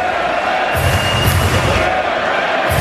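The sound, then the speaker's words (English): A hockey arena crowd chants the name of goalie Dylan Garand, forming a loud, continuous roar that stays dense and steady throughout. “Garand's chanting Dylan's name, Dylan Garand.”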